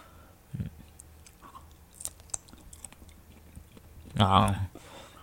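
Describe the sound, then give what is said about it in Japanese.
Someone chews a bite of food dipped in mayonnaise, with soft, moist chewing and crunching and a louder burst of chewing near the end. “ちょっともう一回マヨネーズつけて食べてみますね”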